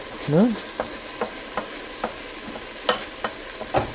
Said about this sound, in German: Das Ganze jetzt ein paar Minuten weich schwitzen oder braten oder wie auch immer